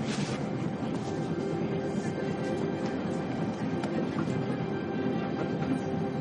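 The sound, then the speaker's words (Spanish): A train rolls along the tracks beside a calm river, making a steady, dense rumble with rattling wheel noise and faint clicks that holds at an even loudness throughout. “El tren avanza por las vías junto a un tranquilo río.”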